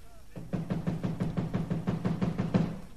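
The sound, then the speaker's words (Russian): Rapid knocking on a locked door: a fast, even series of dull thuds that repeats steadily for a few seconds without a break. “Стучи! Нема никого, наверное. Еще стучи!”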